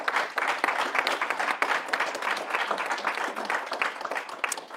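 Audience applause fills the room in Brussels after an ambassador's remarks at a transatlantic data privacy event: dense, steady clapping, moderately loud and unbroken throughout, with no voices over it.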